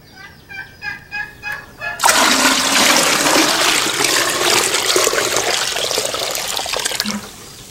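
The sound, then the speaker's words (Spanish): Water poured from a bucket to fill a washbasin: a steady, loud rushing pour lasting several seconds, then ending abruptly. “Ándale por otra cubeta de agua para terminar de llenar la pila.”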